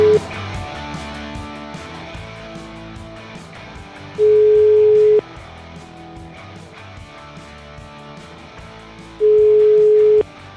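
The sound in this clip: A telephone rings with no answer, heard as a ringback tone: two long, steady, mid-pitched beeps, each lasting about a second and spaced roughly five seconds apart, over a softer humming background.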